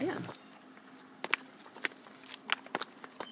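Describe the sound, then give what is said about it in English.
Footsteps walking down steps toward a small brewery: several sharp, uneven footfalls clustered in the second half, clicking over a low, steady background. “So we're gonna walk down the steps.”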